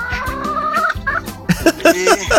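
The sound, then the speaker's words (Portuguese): Chickens call while being tended, a drawn-out, wavering squawk followed by a run of short, choppy clucks and cries, loud and clear with no talking. “Tô aqui agora cuidando das galinhas.”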